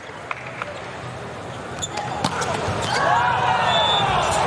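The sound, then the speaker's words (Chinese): A volleyball is bounced a few times on the court before a serve at a US team match tied 16-all, sharp brief thuds over a steady wash of arena crowd noise. “还是马蒂斯发球”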